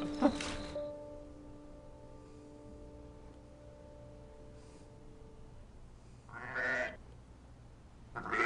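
A sheep or lamb bleats a few times, with a harmonic, wavering cry near the start and another near the end, separated by a stretch of low steady hum.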